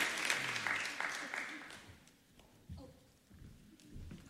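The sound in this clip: Audience applause at an award ceremony: dense clapping that fades steadily over the first two seconds, leaving quieter scattered low thumps and faint sounds.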